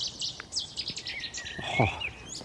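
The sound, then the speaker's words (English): A Cetti's warbler sings, giving a faint series of short, sharp, high chirping notes in quick succession, with a brief downward-sweeping call partway through, over quiet background noise and no talk. “there's that Cetti's warbler right behind us.”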